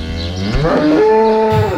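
A cow moos in a stall: one long, loud lowing call with a strong, steady harmonic tone that holds for nearly two seconds, with no other sounds.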